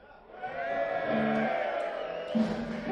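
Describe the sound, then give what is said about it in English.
A crowd cheers and hollers for a man who has just had a birthday. The voices swell within the first half second and hold as a loud, sustained group cheer for nearly three seconds. “It's great when you get cheered just for being alive still.”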